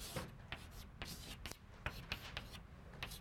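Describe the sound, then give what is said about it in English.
Drawing a figure by hand, a series of short, crisp scratchy strokes in an uneven rhythm, each a quick sharp stroke with faint gaps between them. “let me just draw a figure then”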